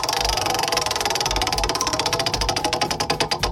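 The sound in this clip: A prize wheel spun in a country music trivia game: a rapid, even ticking of its pointer that gradually slows, the clicks spreading farther apart and growing more distinct toward the end.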